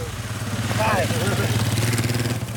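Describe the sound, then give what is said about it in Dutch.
A motorcycle carrying two Ukrainian soldiers rides past on a muddy road in a recently retaken war area, its engine a steady, low, throbbing drone with a faint voice briefly audible over it. “Een motor rijdt langs met daarop twee Oekraïnse militairen.”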